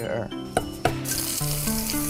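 Loud, steady sizzling as garlic slices are stir-fried over high heat. Two sharp knocks from stirring cut through early on, and the hiss brightens midway.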